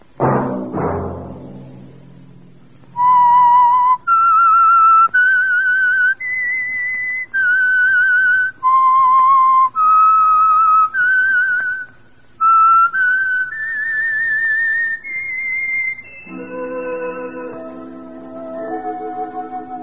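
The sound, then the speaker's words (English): A whistled theme tune for a radio mystery drama: a lone, clear whistle carries about a dozen sustained notes that step up and down in a melody after a brief low opening, then lower sustained tones take over at the end. “Let that whistle be your signal for the Signal Oil program, The Whistler, each Sunday night at the same time.”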